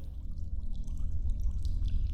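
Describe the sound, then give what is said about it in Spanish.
Water splashing in a well, a continuous low churning and sloshing lasting about two seconds at a steady level, with no voices. “Se produjo otro ruido fuera de la casa, una especie de chapoteo en el agua. Debió de haber sido en el pozo.”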